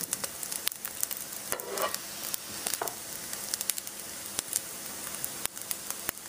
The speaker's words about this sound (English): We're just gonna let it cook just a little bit longer.